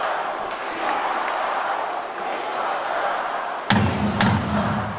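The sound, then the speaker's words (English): A gavel strikes twice at a political convention, two sharp knocks cutting through the steady roar of a crowd. “Ooh. Yeah. That was the gavel.”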